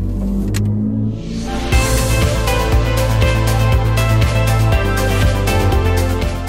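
A BMW car driving off: a deep steady engine rumble that swells into a louder, brighter roar partway through and then holds.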